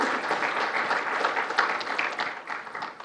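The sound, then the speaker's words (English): Audience applause welcoming a speaker to a military history lecture: a dense, steady patter of many hands clapping that tapers slightly toward the end. “Ladies and gentlemen, please help me welcome Superintendent Brandon Baez.”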